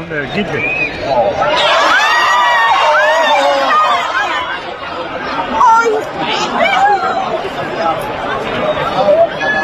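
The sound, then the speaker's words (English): A bullfight crowd reacts in horror, recorded on a crowd video: many overlapping voices cry out, gasp and shriek in a loud, continuous wash of excited sound. “On the video itself. On the woman's. Yeah, it was somebody in the crowd. It's crowd video. Here it is if you want to hear it.”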